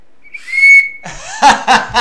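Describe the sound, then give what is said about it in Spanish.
A single whistle blast, high and clear, holds a steady pitch for under a second. It is followed by a few short, loud, noisy bursts. “Pero ese sería el silbatazo común.”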